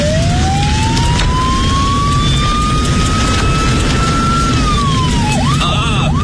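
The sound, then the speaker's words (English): A police car siren wails in a night-time traffic jam. A long rising tone holds, then drops and breaks into quick yelping warbles at the end, all over a constant loud rumble of engine noise. “Look at this traffic jam, even at this time of night. It's time to use the siren, I think.”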